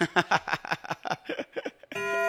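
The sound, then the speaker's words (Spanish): A clock chimes with a sustained, bell-like tone and steady ringing overtones that starts near the end, after a stretch of people talking. “Son las 10:48 minutos. El reloj ya nos está sonando por acá.”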